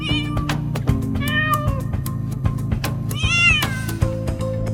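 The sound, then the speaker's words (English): A cat meows repeatedly from a cat carrier in a Lexus. Several drawn-out, wavering meows rise and fall over a steady low hum. “He looks over at the Moggy, Mr. Fuzzy Pants, in his cat carrier.”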